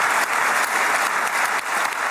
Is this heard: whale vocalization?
no